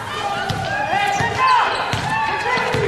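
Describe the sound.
A basketball bounces on a court during bounce passes in a girls' high school game, giving several sharp, evenly spaced thuds under continuous, lively commentary.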